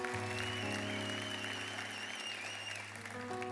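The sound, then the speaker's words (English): A church audience applauds: a steady patter of many hands clapping over sustained musical tones, holding at an even level and easing only slightly toward the end. “Yeah, we can give Bill a hand.”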